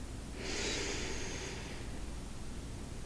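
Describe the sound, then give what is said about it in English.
A single deep breath drawn in through the nose during a meditation exercise, a soft airy hiss that swells and then fades, heard alone against a faint background. “begin by taking some deep breaths in through your nose”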